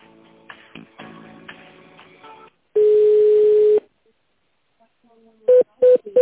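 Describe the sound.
Telephone ringing tone plays while a caller is transferred to a staff member: one steady, mid-pitched tone lasting about a second, then a pause and a few short, evenly spaced beeps at the same pitch.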